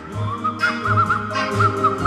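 A woman whistles a tune, with clear melodic notes rising and falling in a lively phrase at moderate loudness over a low, pulsing background.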